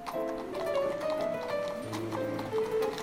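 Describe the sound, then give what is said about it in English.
Horse hooves clip-clop steadily as a horse-drawn carriage travels a snowy, icy road on a long journey, a continuous rhythmic patter running through the whole clip. “She sets out on the long, difficult carriage ride to Warsaw.”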